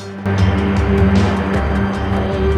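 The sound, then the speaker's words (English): Deep engine rumble from four Humvees tearing across a dusty desert track. It starts abruptly after a short lead-in, then holds as a loud, steady, low droning roar with slight wavering. “Four Humvees come tearing across the dusty desert track, producing clouds behind them.”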